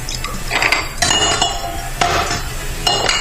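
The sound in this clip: Glass clinking as a drink is refilled during cocktail mixing, a few bright clinks and clatters over a busy background of handling sounds.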